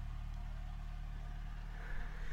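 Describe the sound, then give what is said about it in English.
A boat going past gives a steady, low droning engine hum that holds at an even level throughout, with no talk. “Sorry, boat going past.”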